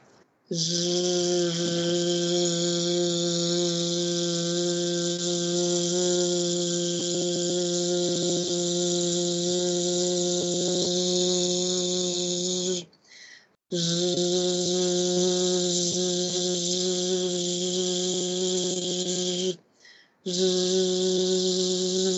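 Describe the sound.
Sustained voiced buzzing 'zh' sounds held in an open, expanded posture. Three long, steady buzzes with a strong hum and hiss are broken by two short pauses for breath.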